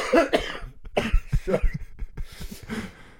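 Harsh, repeated coughing from someone whose coffee went down the wrong way: several rough bursts with strained breaths between them, loud and choking.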